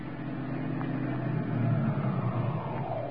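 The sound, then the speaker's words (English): Car pulling up and stopping outside an apartment house: a steady, low engine rumble with road noise that swells slightly midway and then holds. “The great detective is just stopping outside the apartment house where Tess Trueheart lives.”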